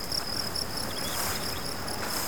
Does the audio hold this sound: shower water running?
no